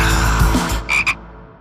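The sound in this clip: Two quick, bright frog croaks serve as a sound effect in an advertisement for an online shopping store. They follow a fuller sound that fades out.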